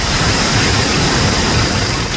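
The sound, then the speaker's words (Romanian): Heavy rain and hail pound down during a cloudburst in Glodanu Sărat, a loud, dense, unbroken roar with no break and no voices. “iar s-a rupt nori. Altă repriză și cu piatră și cu de toate. Au câta piatra de mare.”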